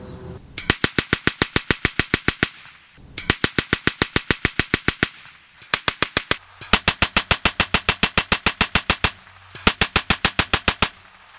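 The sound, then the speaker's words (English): A Spandau aircraft machine gun test-fires in five loud bursts of rapid, evenly spaced shots, one burst much shorter than the rest, with brief gaps between them. “I'm just going to test fire this gun so you can get a little bit of an idea of what it's going to sound like.”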